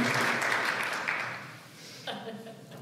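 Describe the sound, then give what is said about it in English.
A church audience claps in welcome, a soft wash of applause that fades away over the first second and a half before a voice starts speaking. “so we clap for him for a service. Maybe you can clap for him too.”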